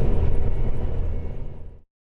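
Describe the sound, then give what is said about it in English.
A farm machine cutting the last strip of grass in a field gives a rough, steady engine rumble with a fluttering texture. The sound weakens slightly toward the end, then cuts off abruptly. “You're just cutting this little tiny bit, carefully manoeuvring the machine to catch the last 20 yards of grass.”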